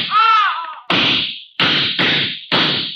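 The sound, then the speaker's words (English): Four sharp gunshots are fired from a gun. Each is a loud, abrupt crack with a short decaying tail, and they are spaced unevenly after a brief wavering tonal sound at the start. “Go on, or I'll kill you. I don't go in for this kind of stuff. Besides, shoot and empty your gun into them. Go on.”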